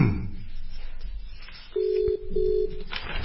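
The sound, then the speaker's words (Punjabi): An outgoing telephone call: after a soft noisy start, a steady, low-pitched ringback tone sounds in two pulses separated by a brief gap. “ਤੇ ਆ ਲਓ ਜੀ ਅਸੀਂ ਰਜਿੰਦਰ ਸਿੰਘ ਜੀ ਹੁਣਾਂ ਨੂੰ phone ਕਰ ਦਿੱਤਾ।”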